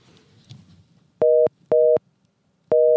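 A telephone busy signal after dialing a landline number: three loud, steady, mid-pitched tone bursts separated by silences, following a faint stretch of low background noise.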